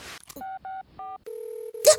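Keypad tones as a number is dialed on a mobile phone: three short dual-tone beeps, then a steady low ringing tone on the line, ending in a brief burst of noise.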